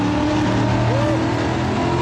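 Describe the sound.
American car engine revving hard inside a tunnel, a loud, continuous, dense roar with a steady, unbroken growl throughout the brief stretch.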